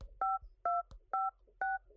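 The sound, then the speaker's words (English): Touch-tone beeps as a long phone number for a foreign provider is dialed: four clear dual-pitch tones at an even pace, each with a soft key-press click, and a fifth tone begins just as the sound cuts off. “I have to dial an ungodly number of numbers”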